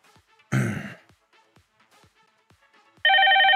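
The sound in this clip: An electronic ringtone for an incoming phone call starts abruptly near the end, loud and steady. Before it come a short breathy throat-clearing noise and faint clicks.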